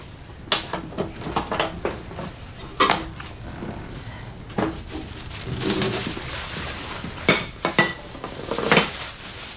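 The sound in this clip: Plates clatter as two are fetched in a home kitchen, a few sharp ceramic clinks and knocks with brief pauses between them, no voices.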